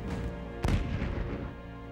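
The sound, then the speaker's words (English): A missile explodes against a burning ship in one sharp, heavy boom that rises out of a low background rumble and trails off into a rolling, fading roar. “As flames engulf it, the missile heads straight for the glowing vessel. It explodes, thrusting Johnny”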